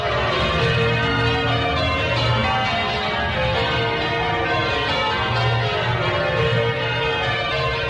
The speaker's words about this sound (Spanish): para escuchar el vibrar de las campanas de toda España?